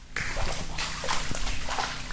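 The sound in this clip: Someone wades through silt and water in a flooded greenhouse on a storm-wrecked farm, making wet, sloshing splashes in a few uneven pushes, moderately loud and without speech.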